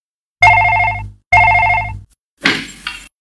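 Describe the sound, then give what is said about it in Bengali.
A telephone rings in two loud, rapidly trilling bursts with a short gap between them, followed by a brief clatter. “ওই তো phone বাজছে। দাঁড়া দাঁড়া, আমি ধরছি।”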